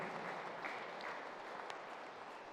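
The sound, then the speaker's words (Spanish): Faint, steady applause from an audience honoring a martyred priest, a dense continuous patter of many hands with no talk over it. “Demos un fuerte aplauso a este santo sacerdote mártir, mártir de la fe,”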